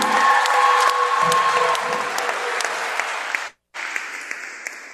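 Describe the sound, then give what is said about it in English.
A crowd applauding a senior player, number 34, at a school senior-night ceremony, with steady, full clapping for about five seconds and a brief gap near the end. “Fans, let's have one more round of applause for number 34, Landon Lorman.”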